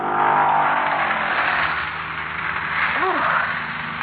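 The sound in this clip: A car swerves off the road with its engine roaring steadily and loudly throughout, and a brief voice cries out near the end.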